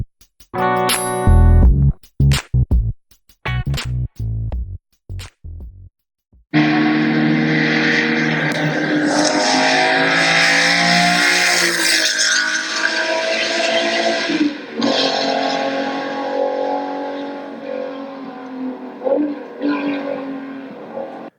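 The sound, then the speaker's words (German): A Ferrari 250 GTO Berlinetta engine gives several short, sharp revs, then a long, loud, sustained roar whose pitch shifts and climbs as it keeps running. “Millionen muss er hinlegen, damit das Ding dir gehört, was du gerade gehört hast. Nämlich einen Ferrari 250 GTO Berlinetta.”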